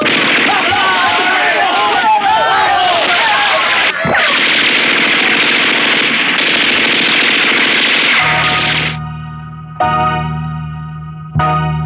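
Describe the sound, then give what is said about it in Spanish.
Bursts of machine-gun fire shot at point-blank range at guards, a loud, dense rattle with echoing effects, followed near the end by sustained steady tones. “Disparado a quemarropa contra los guardias. En la primera ráfaga cayeron muertos 5.”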